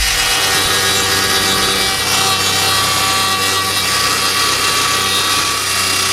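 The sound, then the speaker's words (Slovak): A circular saw cuts through wood with a loud, unbroken high whine and gritty rasp, holding steady without pause for about six seconds. “Áno, áno, je to cirkulárka, cirkulárka, alebo aj cirkulár sa tomu hovorilo v mužskom rode.”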